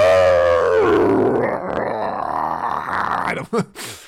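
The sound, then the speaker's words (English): A person imitating a scary animal howl: a long, loud, low voiced wail that slides downward in pitch, then turns rough and growly before breaking into a few short final bursts. “That was me just trying to do a terrifying animal, scary animal noise, but in fact, it's actually a person.”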